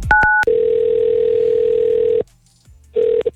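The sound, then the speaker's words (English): Telephone ringback tone of a call to an American number: a couple of brief keypad beeps, then a loud, steady low tone lasting about two seconds, a short silence, and the same tone starting again. “So when you ring it, it rings an American number. And it kind of sounds like this.”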